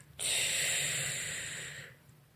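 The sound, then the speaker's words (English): A single slow, long breath during a relaxation exercise, an airy rush of air that holds steady for over a second and then tapers off, heard alone. “Close your eyes now and breathe in and exhale slowly.”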